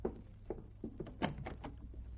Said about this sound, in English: Shall I answer the door? No, you finish packing. I'll get it.